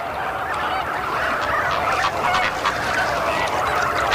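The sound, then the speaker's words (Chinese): Loud, continuous overlapping honking calls of crested parent birds searching a crowd of near-identical chicks in a breeding colony, forming a steady dense chorus with no pauses. “好在每只亲鸟都能发出独特的叫声。”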